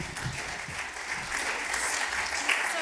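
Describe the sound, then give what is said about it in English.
Audience applause at a poetry festival showcase of school students: steady, dense clapping from a crowd that holds an even level throughout, with a slight swell toward the end. “please make some noise for Foyle Young Poet, and her name is Phoebe Power”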